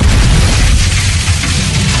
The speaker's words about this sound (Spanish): ¿Qué fue eso? ¿Qué? Esa fue el arma antitanque. ¡Es un maldito tanque!